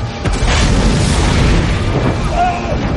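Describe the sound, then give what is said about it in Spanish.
A wall blasts apart in a burning city during a dragon attack, in a film scene. A loud, sustained roaring rumble with crashing debris fills the whole clip at a fairly constant level. “Un muro estalla junto a Aria.”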